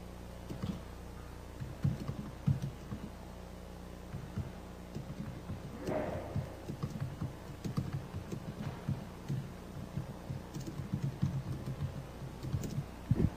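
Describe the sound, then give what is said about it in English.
Typing on a computer keyboard: many faint key clicks in quick, uneven bursts that continue throughout over a low steady hiss. “So allow me to type something in really fast when I set on the microphone.”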